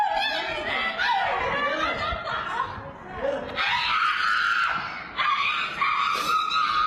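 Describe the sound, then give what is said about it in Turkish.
A woman screams while a man drags her along the ground during a street assault in Eskişehir. Her loud, high, strained cries come in long sustained bursts, with other voices mixed in. “zavallı kadını yerlerde sürüklerken çığlıklar mahalleyi inletti.”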